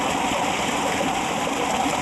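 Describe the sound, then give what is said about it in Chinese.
A babbling stream of flowing water near a village's fields, a steady, even rush and gurgle that holds at one level throughout, with no voices. “淙淙流水间，一尾尾泉水鱼见证着田里村的发展变迁”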